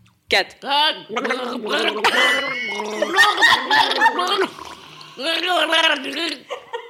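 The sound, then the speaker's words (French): A person gargles water while trying to sing song lyrics, producing bubbling, warbling vocal tones in a series of loud bursts with short pauses between them. “avec un gargarisme du coup”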